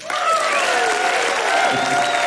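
A crowd gives loud, sustained applause as the band Yarn is welcomed back onto the Mountain Stage, a dense, even roar of clapping with high cheers and whistles riding over it.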